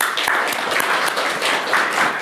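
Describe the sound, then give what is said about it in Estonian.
Audience applause at a society gathering honouring one of its members: dense, steady clapping from many hands that holds at an even level for about two seconds. “võiksime tal isegi muidu aplausi teha”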